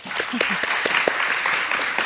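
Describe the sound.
An audience claps to welcome a woman speaker at a church women's morning gathering. The applause is dense and steady, with many overlapping claps at an even, fairly loud level.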